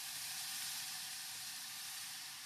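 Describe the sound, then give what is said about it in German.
Bacon sizzles as it goes into a very large cooking pot for a Bolognese sauce, a faint, steady, bright hiss of frying with no break. “Jetzt kommt schon direkt der Speck dazu.”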